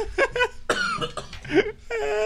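A man coughs and chokes after something went down the wrong way: a few harsh, throaty coughs with strained, voiced gasps between them, ending in a longer rasping breath.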